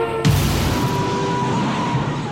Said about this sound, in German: Bums, da hat's auch schon geknallt.